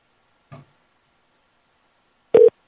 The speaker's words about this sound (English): it says call failed to connect because the number was unreachable or some shit. I'm gonna call it back.